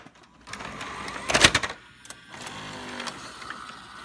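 A video tape is pushed into a player, producing a short run of mechanical clunks and clicks with a louder burst in the middle, followed by quieter whirring and rattling from the loading mechanism.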